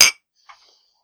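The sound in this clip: Glasses clink together in a toast: a sharp, bright strike is followed by a fainter second clink that leaves a short, high ring, with no voices.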